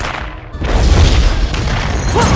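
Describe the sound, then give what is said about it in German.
An explosion hits a vehicle in a film action scene: a loud, deep roar that swells in abruptly and keeps rumbling heavily to the end. “Explosion an Fahrzeug 3, Statusüberprüfung.”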